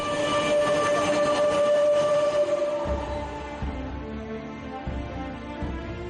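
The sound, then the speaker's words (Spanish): Metro train running on the Bilbao and Biscay network: a loud, steady mechanical rumble with a sustained whine, turning after about three seconds into a slightly quieter run with rhythmic low thumps from the wheels. No voices. “Bilbao y Vizcaya ya no se entienden sin su metro y muchos pueblos y ciudades del área metropolitana han podido iniciar su propia transformación gracias a este medio de transporte”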